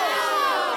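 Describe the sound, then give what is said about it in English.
A studio audience shouting together in a single loud burst of massed voices lasting under a second. “Anyway, that sound you heard, of course, came from our wonderful studio audience”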